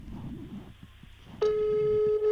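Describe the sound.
A telephone ring tone cuts in abruptly after low, murmuring room noise, then holds as a steady, loud electronic buzz for about a second.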